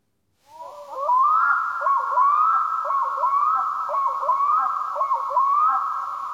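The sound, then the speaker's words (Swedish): June night sounds outdoors: after a short silence, a bird gives loud, repeated wailing calls that rise and waver, carrying steadily to the end. “Och precis som förra timmen kommer vi att lyssna på juninatten.”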